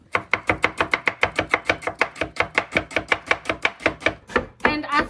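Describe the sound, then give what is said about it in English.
A knife chops an onion into thin pieces on a cutting board, many rapid, evenly paced crisp strikes in a steady rhythm, with no talk over them. “So the trick to cutting the onion is to cut it this way, vertical ways, and then you're gonna do it, cut it in half again.”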